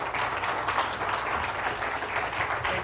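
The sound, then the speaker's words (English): A church audience applauds, a dense, even patter of clapping that is fairly faint and lasts about three seconds. “All right, give me a hand. Thank you, guys.”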